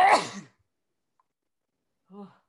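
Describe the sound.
A single sharp sneeze bursts out at the start, loud and breathy, then silence and a brief faint voiced sound.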